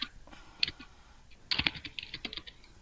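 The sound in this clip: Keys clack on a computer keyboard in quick, irregular taps: a brief sparse burst, then a denser run of typing, fairly quiet.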